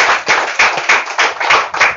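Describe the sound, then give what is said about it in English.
Applause from an audience at a sports event welcoming a former football association vice president, a dense, steady wash of many hands clapping for about two seconds, loud and continuous with no speech. “Please, let's give him a round of applause.”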